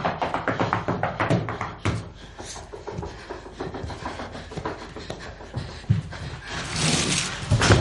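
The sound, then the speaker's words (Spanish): Knocks on a newly built partition wall beside a bathroom: a rapid run of sharp raps at the start, then scattered thuds and rustling. “Golpean el tabique que separa el baño.”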